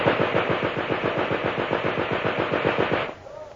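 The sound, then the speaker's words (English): A machine gun fires one rapid, unbroken burst of many loud, evenly spaced shots for about three seconds, then abruptly stops. “Machine gun!”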